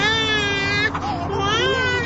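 An infant cries in a loud, continuous wail with a wavering, strained pitch, briefly catching near the middle before carrying on without pause.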